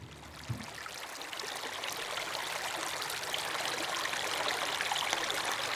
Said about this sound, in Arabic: هذه مية المجرور طلع على الطريق وبتصب بمية المشروع اللي هو بيسمو منه الزرع